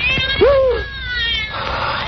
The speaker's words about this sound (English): No. The cat's come back to the island.